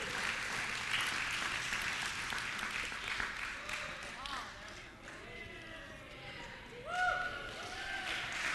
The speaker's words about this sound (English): Whew, thank you, men. Give them a hand.